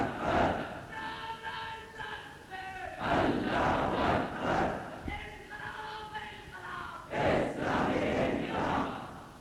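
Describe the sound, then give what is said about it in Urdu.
A large crowd chants revolutionary slogans, loud massed voices shouting in repeated rhythmic phrases with brief breaks between each chant. “آپ انقلاب کے نعرے لگاتے ہیں، کتنا خوبصورت نعرہ ہے، کتنا شیرین نعرہ ہے”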